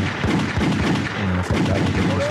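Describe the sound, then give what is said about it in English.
Gunshot sound effects crack in a rapid, irregular series of many sharp, loud bursts, with no talking in between. “I wish I had a gunshot. I do got that.”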